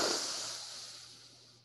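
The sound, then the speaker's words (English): A slow, deep breath during a guided breathing exercise: a soft, airy hiss that fades gradually over about a second and a half, with no talking. “Let that breath settle in your body. And breathe in again.”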